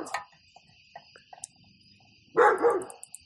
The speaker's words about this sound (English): Did you hear the Dirk in the background? The neighbors know. I mean, we're the rude ones because we're out in the back podcasting, no, but dog's got to pee, you know?